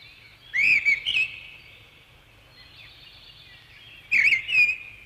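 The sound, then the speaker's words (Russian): European robin song at sunset: two short, high, warbling phrases, bright and fairly loud, separated by roughly three seconds of near quiet over a faint low hum. “А теперь мы попросим Зарянку перевести ее песенку с птичьего языка на наш, человеческий.”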